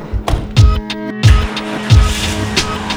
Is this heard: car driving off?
yes